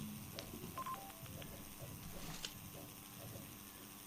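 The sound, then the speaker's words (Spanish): Telephone keypad dialing tones while redialing a dropped call: a few short, faint beeps stand out over soft hiss and light mechanical clicking. “Bueno, y perdimos el contacto con la llamada. Vamos a ver si la podemos volver a enlazar.”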